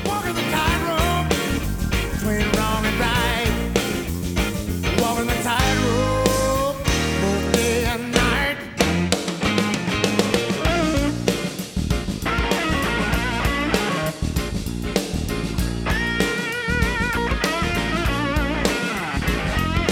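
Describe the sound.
Blues rock song played from a record: electric guitar carries a busy lead over steady driving drums and bass, loud and continuous throughout without pause.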